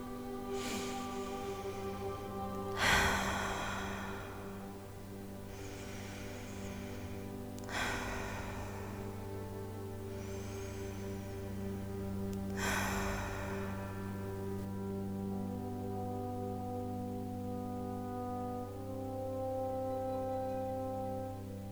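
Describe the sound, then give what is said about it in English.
Three deep, slow cleansing breaths close a meditation practice, each one a soft rushing swell spaced several seconds apart over a low, sustained musical drone. “We're going to take some cleansing breaths to close out this practice.”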